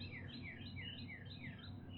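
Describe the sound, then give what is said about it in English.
Birds sing in a dawn chorus before sunrise as new singers join in. Faint, high, repeated descending chirps follow one another steadily over a low background hum. “This is probably one of my favorite parts of the dawn chorus, right as new singers start to add in their songs.”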